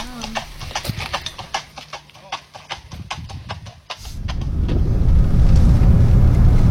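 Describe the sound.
Horse hooves clip-clopping on a road as fox-hunt riders approach, with many quick, sharp strikes in an irregular rhythm, then a rising, steady rumble of a vehicle takes over.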